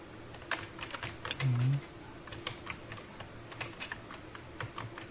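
Faint, rapid typing on a computer keyboard, a quick run of many key clicks with a short low hum partway through.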